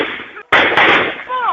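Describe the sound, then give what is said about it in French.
Gunshots fired by men in uniform at civilians, from a video: two sharp, loud bangs in quick succession within a noisy, crackling soundtrack, with a voice rising at the end. “on voit par exemple de présumés militaires, en tout cas des hommes en uniforme, tirer sur des civils, parfois à bout portant.”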